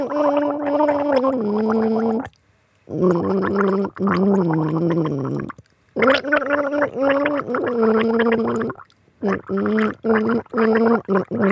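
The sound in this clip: A person gargling a song, the melody carried through a bubbling, watery throat sound in several loud sung phrases broken by brief pauses, as part of a guessing game.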